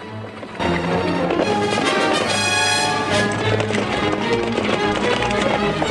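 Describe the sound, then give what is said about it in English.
Horses gallop over dry, dusty ground in a chase, a dense, continuous drumming of hoofbeats that stays loud throughout after a short, quieter start. “give chase on their horses, their hooves throwing up a cloud of dust.”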